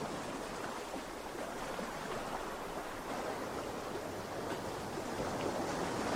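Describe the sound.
Gentle sea waves form a faint, continuous hiss of surf and moving water, smooth and unbroken, without distinct crashes.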